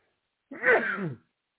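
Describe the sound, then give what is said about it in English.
A single sneeze, a short breathy vocal burst under a second long, fairly faint and alone. “I got to sneeze here.”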